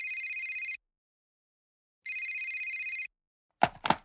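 A telephone rings past midnight at night, waking a sleeper. Two bright, high-pitched ring bursts are separated by a pause, then followed by a couple of brief, sharp knocks.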